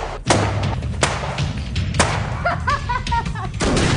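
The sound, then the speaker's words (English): Gunshots in a film gunfight scene: a few sharp, heavy bangs spaced out over a steady low rumble, with brief, faint tonal sounds between them. “Gunfight.”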